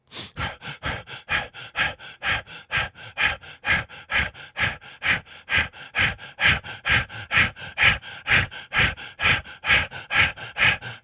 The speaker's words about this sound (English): Release the breath. Again, breathe in and out.